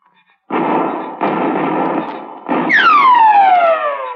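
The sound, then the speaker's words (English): Gunshots in a radio drama: three loud bursts with long, rough tails. A long whistling whine falls steadily in pitch after the last one. “I could see one of his boys firing from behind a tree behind us. So I aimed at his arm. And the bullet hit him on the shoulder and he lurched forward.”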